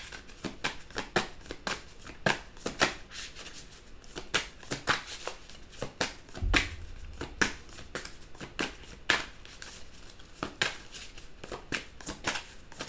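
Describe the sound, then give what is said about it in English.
Playing cards are shuffled and drawn during a tarot-style card reading, with many quick, crisp riffling flicks and soft slaps in an irregular rhythm, fairly quiet throughout. “I'm just going to take a few more cards. May I have a few more cards, please, for the collective?”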